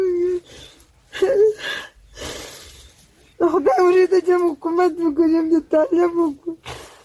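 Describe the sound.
A 47-year-old Afghan woman, a mother whose two sons were killed in fighting between Afghan soldiers and the Taliban, cries in loud voiced wails and sobs. The outbursts come in uneven bursts, separated by gasping breaths and brief pauses.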